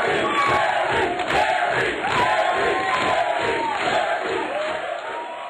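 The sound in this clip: The Jerry Springer Show studio audience chants together, a loud, sustained mass of voices that holds steady before easing slightly at the end.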